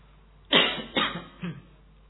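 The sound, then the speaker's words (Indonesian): Three coughs, a slightly exaggerated, stylized cough made in front of an audience: short rough bursts, the first the strongest, with brief pauses between them. “Tapi karena di sini batuknya agak digaya-gayakan.”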